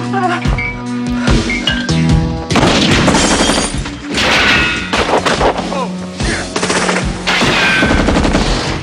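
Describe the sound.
Heavy gunfire in a shootout across a bar: repeated loud bursts of rapid shots mixed with crashing impacts, continuing with little pause throughout.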